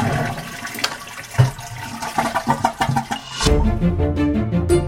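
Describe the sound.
A toilet flush, linked to the new toilet technology of a 1945 German submarine: several knocking, clattering pulses give way to a loud, steady rush of water that continues to the end.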